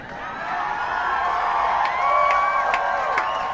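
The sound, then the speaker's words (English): A school crowd cheers, a steady wash of many voices with a few higher whoops rising above it, held at moderate loudness throughout. “If I would have said it like that, they would have cheered twice as loud.”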